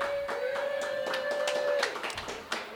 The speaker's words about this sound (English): This is the first time anybody's ever clapped at Jeff Stormer